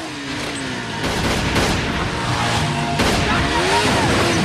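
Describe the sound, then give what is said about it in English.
Gunfire in a nighttime shootout, with one man firing from a tower and another shooting from a motorbike: a few sharp, loud shots crack out over a rumbling, noisy background. “Matt fires at him. Eddie rides over on the bike, shooting at them.”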